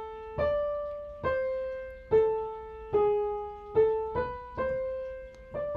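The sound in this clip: The isolated answer voice of a fugue, played as a single melodic line of eight plucked or struck notes, each with a sharp attack and a slowly fading tone, in an even, measured rhythm, with no voices.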